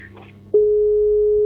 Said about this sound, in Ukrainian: на жаль, зірвався телефонний дзвіночок, але просимо вас перетелефонувати